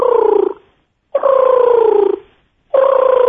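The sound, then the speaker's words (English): A human voice imitates an eastern screech owl call, as heard in South Florida: three sustained, tremulous tonal trills of steady pitch separated by short pauses, loud and clear with no other talk. “The screech owls are extremely common throughout South Florida. And you're right. They don't screech. They actually make a sound that goes like this.”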